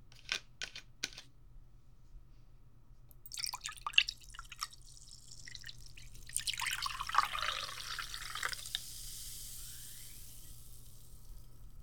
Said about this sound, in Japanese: 先生も自分の分を注いでっと。